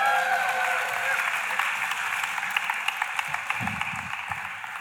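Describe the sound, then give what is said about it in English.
An audience applauds, giving a special round of applause to honour a person. The clapping is faint and steady, and a few sharper individual claps stand out near the end. “Special round of applause for John Jackson.”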